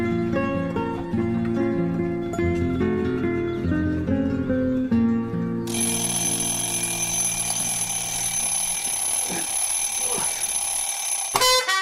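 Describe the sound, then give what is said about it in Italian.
An alarm clock goes off at six in the morning, first with a repeating electronic melody, then with a loud, steady, high-pitched ringing that carries on to the end. “La sveglia suonò alle 6 di mattina.”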